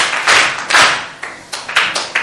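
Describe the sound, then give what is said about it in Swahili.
A group at a school claps hands in praise of a child, in several uneven, loud surges of claps with short pauses between them and no talk. “Jamani, tumpigie makofi mtoto mzuri.”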